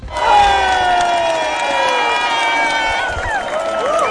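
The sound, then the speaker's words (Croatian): Loud, continuous crowd cheering and shouting from Croatian football fans celebrating a win at night in the streets of Rijeka, Split, Osijek, Zadar and Zagreb, with sustained tonal chanting or horn-like calls running through the roar. “Navijači u Hrvatskoj sretni, ali i zadovoljni utakmicom. Slavilo se noćas u Rijeci, Splitu, Osijeku, Zadru i Zagrebu.”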